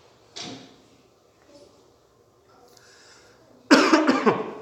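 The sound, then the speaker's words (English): A loud, harsh cough bursts out near the end, a rough cluster of sharp expulsions following quieter stretches with only faint scattered sounds. “That's my second cough.”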